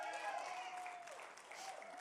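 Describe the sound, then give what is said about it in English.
An audience applauds a man's wife as she is called up onto the stage, a faint, continuous patter of clapping with a voice heard over it. “Everybody, give my wife a little applause.”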